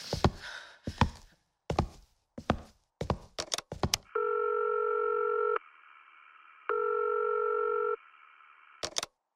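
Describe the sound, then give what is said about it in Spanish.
Intercom ringing during a call to a security guard: a run of clicks and knocks, then two long, even electronic ring tones separated by a short pause, followed by a couple more clicks. “Le voy a hablar al guardia por el interfón.”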